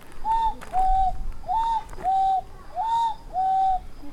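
Cuckoo calling its two-note cuckoo three times, each pair a higher note followed by a slightly lower one, clear and steady with short gaps over a hissy background.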